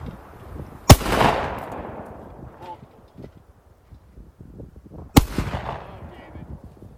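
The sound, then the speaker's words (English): A man fires a gun: two loud, sharp gunshots several seconds apart, each with a decaying tail that fades into a quieter background. “Oh, isn't that weird? David Hogg shooting guns?”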